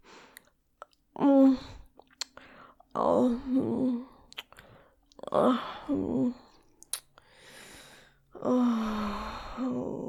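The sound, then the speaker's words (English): Someone tasting and chewing cream pie, heard as several voiced murmurs of enjoyment and breathy sighs separated by short pauses, with faint mouth sounds between them. “I've been dreaming about this cream pie. Wait. I want to taste it too.”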